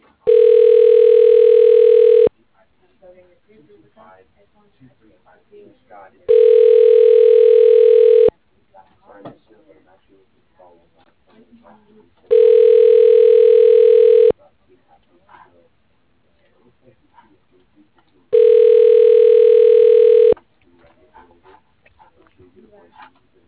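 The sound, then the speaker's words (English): Four long, steady ringback tones sound as a phone call goes through to an office extension. Each tone lasts about two seconds at an even pitch and is loud, with longer quiet gaps holding faint line noise between rings. “dialing Kelly Scott, extension 1107.”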